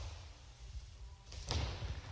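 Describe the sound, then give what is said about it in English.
A bowling ball strikes the pins for a strike: a low rolling rumble builds into one sharp crash near the middle, then a lower clatter lingers to the end. “the spin the roll and he gets the head pin that time, and he picks up the 10 and gets the strike. It looked like he was going to hang the 10 pin, but at the very last second, somebody got it just to tick it over and it fell the delayed fall”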